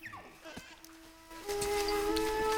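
Goat bleating on a farm, faint, brief wavering cries near the start, followed by a steadier sustained tone.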